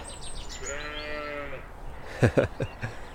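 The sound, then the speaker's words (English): A lamb bleats once in a field beside a canal in the Brecon Beacons at dawn in spring: a single wavering call of about a second, followed by a few short knocks. “I can see little lambs with their tails flickering with excitement. Feeding from their mothers, sort of desperate to get at the milk.”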